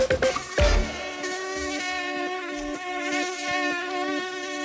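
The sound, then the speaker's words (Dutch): A mosquito buzzes in a continuous whining drone, a steady high-pitched tone rich in overtones, faint throughout, with a soft noise burst near the start and a few brief low knocks. “Het is hartje winter, maar toch wordt al volop melding van gemaakt van muggen.”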